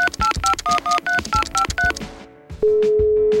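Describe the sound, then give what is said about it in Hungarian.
A telephone number is dialed on a keypad: a quick run of short, crisp dual-tone beeps, then a brief pause before a steady continuous line tone sounds. “már meg is van a szerencsés, akit azonnal tárcsázok.”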